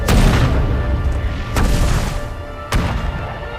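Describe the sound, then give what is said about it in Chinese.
Artillery shells firing in a battle: three heavy booms over a continuous dense rumble, each one a loud, broad burst, with no talk. “这是咱们的炮，停止炮击。 太好了，咱们的炮弹发威了，”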